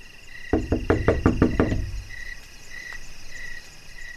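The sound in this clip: Knocking on a door: a quick run of about seven sharp, evenly spaced raps, then stillness, with crickets chirping steadily throughout.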